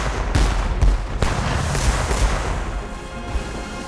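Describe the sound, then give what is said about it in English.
Ship's cannons firing in a naval battle: a few heavy, booming blasts burst out in the first second and a half, followed by a continuous low rumble and crackle of gunfire. “Delaney, crew the cannon! Man the cannons! Come on, lads! Stand fast till she's close! Hold steady! On my mark! Aye, sir! Fire! Fire!”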